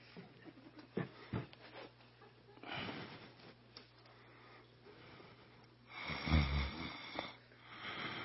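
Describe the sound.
A person fakes snoring while pretending to doze off, giving a couple of drawn-out, rasping snore breaths with a snorting, wheezy texture, separated by quieter breathing and a few faint clicks.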